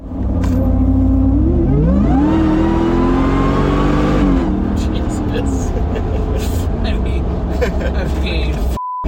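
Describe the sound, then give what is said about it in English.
A supercharged 4x4 whines during a test drive. A tonal whine climbs with the revs over the first few seconds and then settles into a steady engine rumble, with people talking over it. “You can hear the supercharger whine.”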